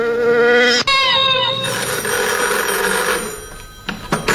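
A telephone rings loudly, first as a steady, buzzing tone, then as a rapid, trilling ring that fades into a faint hiss, with no voices.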